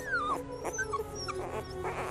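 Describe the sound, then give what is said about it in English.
Newborn puppies whimpering: a few thin, high whines and yips, some sliding downward in pitch, soft and close together over a quiet background. “Aren't they the most adorable puppies you've ever seen?”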